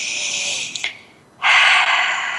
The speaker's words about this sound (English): So let's take a breath